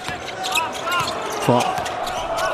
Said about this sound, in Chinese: 冯奥运球找节奏